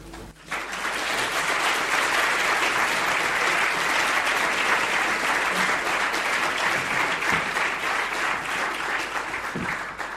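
Applause from an audience welcoming philosopher Daniel Dennett to the stage: a quick swell into thick, even clapping that stays loud and steady for about ten seconds before easing slightly at the end.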